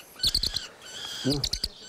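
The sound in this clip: High, thin chirps from a hand-raised bird that hatched in human care come in two quick bursts of several rapid notes each, separated by a brief quieter pause.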